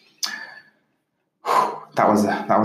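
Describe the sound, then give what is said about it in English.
One quick, sharp intake of breath taken after a long stretch of talking, followed by a brief silence and then a person speaking. “That was quite the information overload. Had to take a little breath.”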